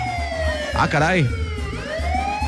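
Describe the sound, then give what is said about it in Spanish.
An emergency vehicle siren wails loudly. Its pitch sweeps rapidly up and down in the middle, then settles into a long, gradually rising tone. “¿Esa sirena qué es?”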